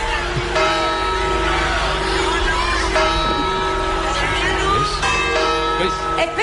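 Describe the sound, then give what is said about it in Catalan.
A church bell striking the New Year chimes, with a few slow, resonant strikes spaced seconds apart. Each ring sustains and overlaps the next. “Atenció, atento, campanada!”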